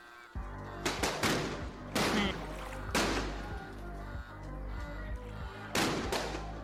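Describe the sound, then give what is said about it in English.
Gunfire from people shooting at a staircase near a bridge: several sharp, loud bursts at uneven intervals, some in quick pairs, over a steady low drone. “you definitely see people near the bridge who are shooting at a staircase.”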